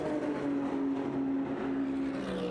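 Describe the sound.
A race car's engine drones as it enters the pits during WeatherTech Sports Car Championship qualifying at Long Beach. The note is loud, steady and strongly tonal, and holds for the whole moment with no voices.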